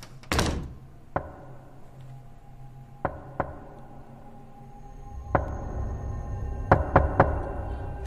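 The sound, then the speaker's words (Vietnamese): Knocking on a door from outside at night, heard as a series of sharp, irregularly spaced thuds over a steady low hum. “Tiếng gõ cửa vang lên ở bên ngoài, rõ mồn một.”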